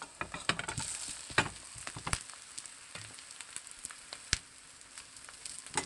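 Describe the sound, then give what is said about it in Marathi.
Stuffed eggplants sizzle and fry in a pan with onion sautéed until pinkish, giving a faint, continuous crackle broken by scattered sharp pops and stirring clicks. “कांदा गुलाबी रंगावर परतून झाला की त्याच्यात आपण stuff केलेली वांगी टाकायची आहेत”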